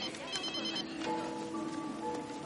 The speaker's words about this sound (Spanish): Mientras, en el hospital, Sidney avisa a Julie de que tiene una llamada.